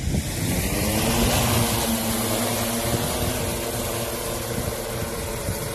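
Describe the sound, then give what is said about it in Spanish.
Steady droning engine hum of a remotely piloted aircraft flying at night over an active wildfire near Estepona, Málaga, supporting firefighting work; a continuous buzzing drone with a steady tonal hum and no breaks. “Es el sonido de una aeronave pilotada por control remoto que durante toda esta noche ha dado apoyo a los trabajos de extinción.”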